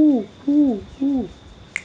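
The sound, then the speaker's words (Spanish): A human voice imitates an owl hooting, giving three short, low hoots at an even pace, each sliding downward in pitch, followed by a faint click. “a lo mejor si estamos en un contexto de la naturaleza va a venir un búho que va a decir”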